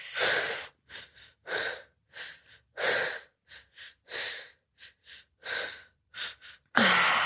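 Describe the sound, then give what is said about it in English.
Breathing during a guided relaxation exercise, with deep breaths drawn in through the nose: many short, airy, noisy bursts in an uneven rhythm, some in close pairs, ending with a louder rush of air. “taking a deep breath in through the nose, holding at the top.”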